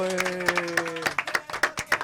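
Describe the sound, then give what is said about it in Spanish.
Hand clapping from a studio audience at a university radio station's season opening. A few steady, evenly spaced claps ring out, with a held tone sounding beneath them during the first second. “un aplauso por favor”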